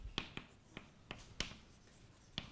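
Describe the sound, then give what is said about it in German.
Writing sounds during a quantum mechanics lecture: a series of about six crisp, faint taps and short strokes spaced irregularly, with no talking. “Ich schreibe es auf.”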